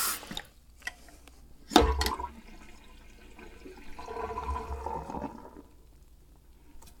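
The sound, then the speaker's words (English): Water runs from a tap while hands are washed with soap, a broad steady rush that swells and fades, with one sharp louder splash early on; no talking. “Wonderful stuff, this soap and this water. Rather handy to have around.”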